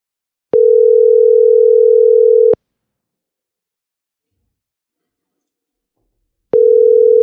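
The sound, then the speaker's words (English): A telephone call rings out over the line as a steady, mid-pitched ringback tone. One tone lasts about two seconds, then four seconds of silence pass before the next tone begins. “let me give this guy a call right now, Michael.”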